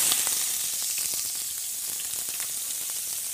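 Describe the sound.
Ordinary vegetable oil sizzles in a very hot pot while making bolognese sauce, a steady, bright hiss peppered with many small crackles and pops, with no talk.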